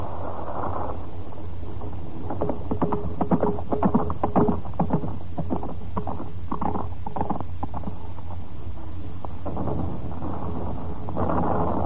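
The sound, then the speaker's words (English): Hooves of a cavalry horse galloping furiously through bombed city streets: many rapid, uneven thuds in a driving rhythm over a steady low rumble that runs throughout. “A young Polish cavalry lieutenant rides furiously through the bombed streets”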